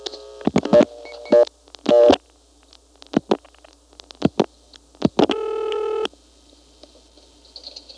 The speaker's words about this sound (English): Here's dialing 2241.